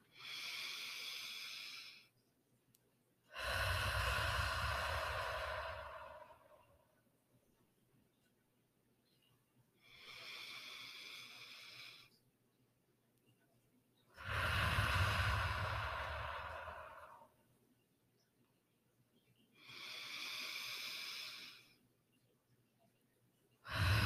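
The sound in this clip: Slow, deep breathing during a guided breathing exercise: a few long, airy inhales alternate with fuller, lower exhales in a steady rhythm, alone without talk.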